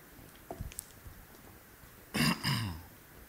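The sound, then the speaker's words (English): A man clears his throat, struggling to dislodge something stuck there: a few soft throaty sounds, then two loud, rasping clearing bursts in quick succession near the end, with no talking. “I can't, for the love of God, get this out of my throat.”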